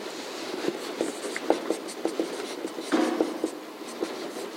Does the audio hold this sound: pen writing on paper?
yes